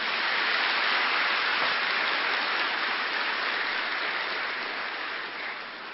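Audience applause from a crowd welcoming first-time attendees, a dense, steady wash of clapping that holds loud for several seconds and eases slightly toward the end, with no voices over it.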